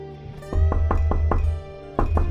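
Knocking on a door: a quick run of several firm raps, a brief pause, then a few more, all over a low steady hum.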